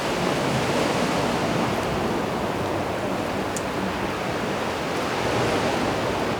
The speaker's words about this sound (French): Que parfois nous avons du mal à discerner le son des vagues de celui du vent.